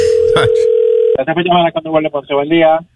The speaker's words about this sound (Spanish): Estamos llamando.